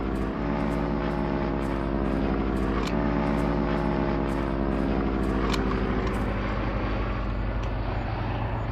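Propeller engines of two biplanes flying overhead make a loud, steady droning hum that holds continuously throughout with a low, throbbing tone.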